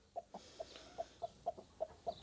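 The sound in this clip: Broody hens cluck in nesting boxes stocked with eggs, freshly placed there to sit as foster mothers for chicks. The clucks are short, soft, mid-pitched and evenly spaced, a steady run of several against a quiet background.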